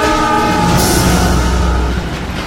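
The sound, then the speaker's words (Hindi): A train approaching on the tracks sounds its horn, a loud sustained chord of several tones held throughout over a low rumble of the rails, with no voices. “Train आ रही है, track से हट जा मेरे दोस्त।”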